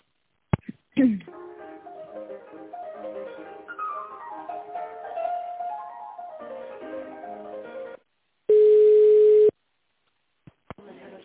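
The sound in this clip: Telephone line sounds during a call transfer: a faint melodic hold tune plays for several seconds and stops, then a single steady tone sounds for about a second, followed by a few clicks.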